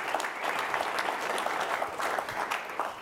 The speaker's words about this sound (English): Let's give it up for our audience and get right into it.